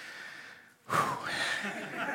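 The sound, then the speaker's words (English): A quick breath drawn by a person reading a long scripture genealogy aloud, one short, soft, airy inhalation following a brief pause, with no words spoken. “Just need a little breath there.”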